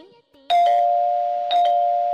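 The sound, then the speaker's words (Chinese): A doorbell chime rings twice. Each ring is a quick double strike followed by a clear, steady tone that keeps sounding loudly to the end. “你听唔听得出系门钟声啊？”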